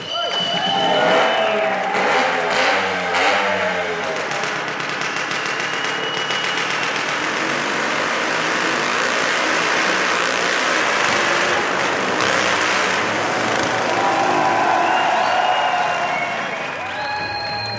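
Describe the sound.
Motorcycle engines roar around a vertical wall of death in a travelling family's stunt show. The pitch rises and falls as the bikes circle, and a crowd applauds steadily throughout.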